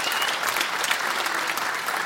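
Audience applauding as a prize is handed out at a live show, a steady wash of clapping hands that holds at an even level throughout with no voices standing out.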